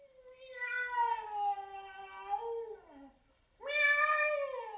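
A cat meows twice: a long, drawn-out wail whose pitch sags at the end, then a short pause before a second strong, clear meow. No voices are heard.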